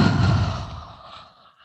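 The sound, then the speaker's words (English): A breath let out through the mouth during a yoga flow, a soft breathy whoosh that starts strongest and fades away over under two seconds. “Have a breath in. Let it out through your mouth.”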